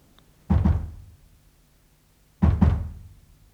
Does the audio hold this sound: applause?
no

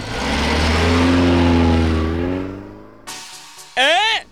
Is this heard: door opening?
no

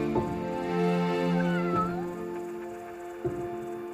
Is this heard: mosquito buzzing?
no

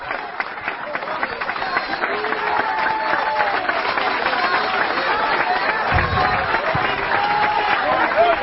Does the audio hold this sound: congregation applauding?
yes

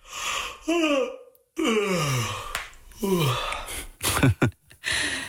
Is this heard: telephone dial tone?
no

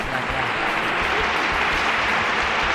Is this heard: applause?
yes

